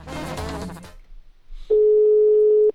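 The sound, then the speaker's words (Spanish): A steady telephone line tone as a caller dials into a radio call-in. A short burst of other sound comes first, then the tone holds at one even pitch for about a second and cuts off. “Juanito ya seleccionó, ya está marcando.”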